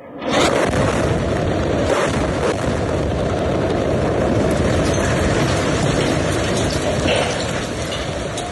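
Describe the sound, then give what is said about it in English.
Missile strike on a home in Gaza City: a sudden loud blast gives way to a long, sustained roaring rumble that stays heavy to the end. “On Sunday, Israel fired 4 consecutive missiles at a home in Gaza City. Reporter Ahmed Kahil filmed the attack.”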